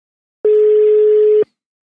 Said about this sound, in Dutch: Laten we maar gewoon gaan bellen. We gaan bellen.